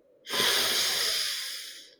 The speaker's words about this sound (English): Inhale such that the person sitting 20 meters away from you can also hear your noise, the sound of your breath.